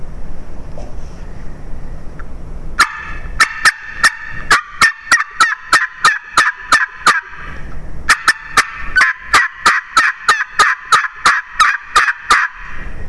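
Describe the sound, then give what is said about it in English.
Imitation wild turkey calls on a tube call: two rapid series of sharp, high excited cuts and hard yelps, separated by a short pause, each note clipped and evenly spaced, with no voices. “So you kind of run a little short series, do a couple of excited cuts and some hard yelping, and then listen.”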